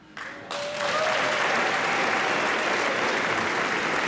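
An audience at a live music show breaks into loud applause after a brief start, settling into dense, sustained clapping that carries on to the end.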